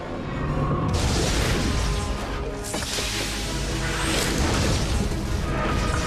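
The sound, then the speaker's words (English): Weapon fire from enemy spaceships hits a ship's shield, with some shots starting to break through. Two heavy booming impacts strike about a second and a half apart, then a dense crashing roar stays loud to the end. “The Ori ships continue firing at the Odyssey. Some of the shots now penetrating the shield.”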